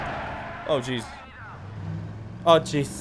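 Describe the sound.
A car driving in a video game, a low engine hum running beneath two short bursts of a voice talking.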